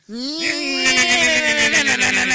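A chainsaw is fired up to cut up a body. Its tone climbs quickly, then settles into a loud, steady buzzing drone with a rough rasp for about two seconds.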